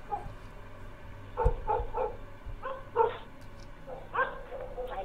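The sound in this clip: Dogs barking in a village at night, sharp faint yips and barks spaced irregularly over low background noise, some coming in quick pairs.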